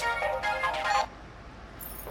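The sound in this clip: A phone ringtone sounds as a father calls back: a bright, tonal melody of stepped notes plays for about a second, then cuts off, leaving faint hiss.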